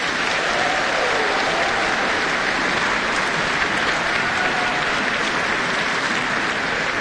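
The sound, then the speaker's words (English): Applause from an audience at a choral singing competition: dense, steady clapping that holds an even loudness throughout, with no voices. “Paki paki mai anō I te whānau.”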